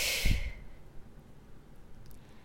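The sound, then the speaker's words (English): A held breath is released as one soft, airy exhale during a guided breathing exercise, a brief sighing rush of air that tapers into faint quiet. “Hold your breath. You are welcome to close the mouth here for 5, 4, 3, 2, 1, exhale.”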